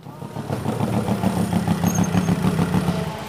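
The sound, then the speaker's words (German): Go-kart engine running at the Ampfing kart track: a steady, buzzing mechanical drone with a rapid pulsing beat that holds at an even, fairly loud level for just over three seconds. “Zurück auf der Kartbahn Ampfing.”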